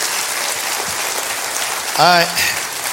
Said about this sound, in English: Give yourself a hand for being in God's house today.